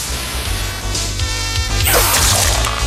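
An arrow is shot in a video game amid a loud, dense mix of game combat sounds, with swishes, impacts and crashing noise piling up throughout.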